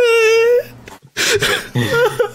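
A person sobs, opening with a long, high, wavering whimper and then breaking into short, choked, uneven cries and gasps, with brief gaps of near silence between them.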